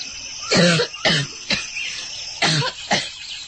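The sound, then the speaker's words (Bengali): Coughing from someone sick with a fever: five short, rough coughs come in separate bursts, with brief quiet gaps between them and no talk. “তেমন কিছু না, একটু কাশি হয়েছে, কিছু না।”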